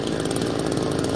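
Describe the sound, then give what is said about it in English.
Rescue workers' chainsaw cutting a tunnel through the rubble of a collapsed high-rise apartment building after an earthquake, a loud, continuous buzzing engine drone that holds an even pitch throughout. “Now, that's the sound of rescue workers using a chainsaw to cut a tunnel through the remains of this high-rise apartment building that collapsed.”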